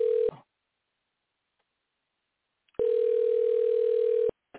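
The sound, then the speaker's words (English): A telephone tone sounds while a call is placed to a guest. A short tail of steady tone cuts off into silence, then one flat, unbroken tone runs for about one and a half seconds and stops abruptly. “Let's call JBD so we can talk to him real quick, and then we'll just keep continuing on.”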